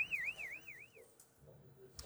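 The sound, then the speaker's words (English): A warning alarm sounds in a severely damaged, earthquake-hit building at risk of collapse, as rescuers clear out of the rubble. A faint, rapidly warbling electronic tone wavers up and down for about a second, then fades into low background noise. “these Costa Rican rescuers were forced to quickly exit from the rubble of a severely damaged building in Playa Grande when the alarms were activated, warning that the building could be about to collapse.”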